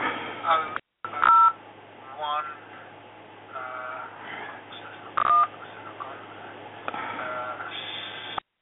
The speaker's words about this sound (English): I'm just going to try and dial 7273116. I'm just going to try and dial this with the